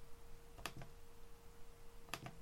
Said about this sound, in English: I click on categories to the right side and click on webcam pain relief experience and publish, and that's done.